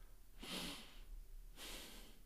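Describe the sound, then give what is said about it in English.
A person taking a breath: two soft, airy rushes of breath separated by a short gap, quiet against a faint steady hiss. “I just took a breath.”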